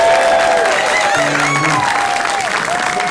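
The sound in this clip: Audience applause and cheering for a participant who played games on a live comedy show, a loud, dense wash of clapping with whoops and crowd voices rising over it.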